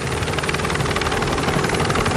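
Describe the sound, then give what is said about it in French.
Loud, steady helicopter rotor noise from a helicopter filming a cycling race stage, a dense whirring roar with a fast rhythmic pulse that holds throughout, with no voices. “Et regardez, cette image d'hélico est vraiment intéressante.”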